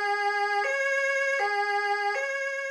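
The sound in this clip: Loud two-tone emergency vehicle siren during the Christmas season, a steady electronic wail that switches between a higher and a lower pitch about every three-quarters of a second, heard alone with no talk.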